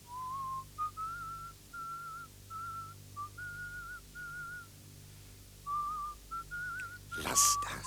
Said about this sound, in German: Dann, als sie aufhört, pfeife ich die Melodie weiter, leise, fast unhörbar.